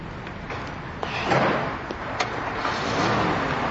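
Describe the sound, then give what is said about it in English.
A car is heard as a constant low rumble in a noisy mix, with a few sharp knocks or thumps standing out above it. “That's my car!”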